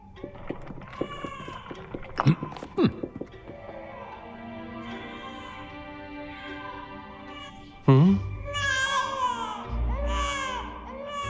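Crying rises and falls in wavering, wailing sobs with sharper breaks, a steady distressed sound that swells louder in the later part.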